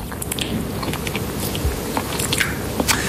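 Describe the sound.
Someone bites and chews a piece of emmental cheese made in the Grand Est from Vosges and Haute-Marne milk. Moist squishing and soft crackles of the mouth repeat in a loose rhythm, close and alone, with no talk.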